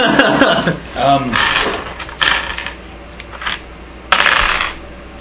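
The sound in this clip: A ten-sided die clatters as it is rolled during a tabletop role-playing game, a few quick hard bouncing taps while people talk over it.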